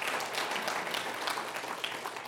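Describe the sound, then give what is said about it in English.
Applause for the kids at a morning service: an audience claps in a dense, even wash of sound that holds steady for the short clip. “Thankfully, let's give them another hand, yeah.”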